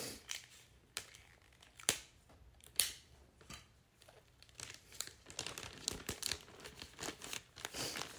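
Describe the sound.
Christmas gift wrapping paper is handled and folded, giving faint crinkling and rustling with a few sharper crisp crackles scattered throughout. No one speaks.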